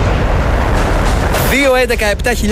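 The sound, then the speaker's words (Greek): Bomb explosion sound effect from the game Beat the Bomb: a loud, broad roaring blast lasting about a second and a half, then a voice begins talking. “Εδώ είναι το Beat the Bomb. Σταμάτα το χρόνο πριν σκάσει η βόμβα.”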